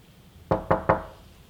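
Three sharp knocks on a door, evenly spaced and quick, stand alone against a faint background.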